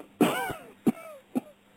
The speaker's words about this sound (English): he has a little cough.